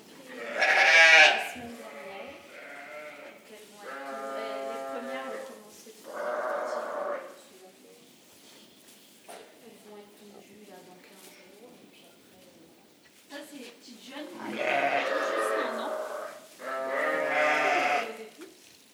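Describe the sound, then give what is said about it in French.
Ewes bleating on a farm, with several drawn-out, wavering calls spread across the stretch. People talk in between and over the animals. “Là, c'est une petite partie des brebis qu'on”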